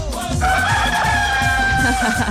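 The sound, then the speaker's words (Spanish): A rooster crows at daybreak in one long, sustained call with a bright, harmonic tone that holds steady from start to end, heard alone and loud. “Ya ve que está cantando bien bueno el gallo.”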